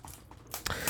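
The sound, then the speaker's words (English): Soft papery rustling as a deck of playing cards is opened and handled. Faint shuffling is followed by a louder, crisp crackle of cards near the end, heard alone with no talk. “I'm opening this deck of cards I have just so I can fiddle around with them a little bit.”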